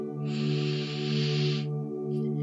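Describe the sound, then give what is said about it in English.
A slow inhale through the nose during a guided breathing exercise makes one soft, airy hiss lasting over a second over a steady low sustained tone, followed by a brief faint breath. “Inhale through your nose for the count of four.”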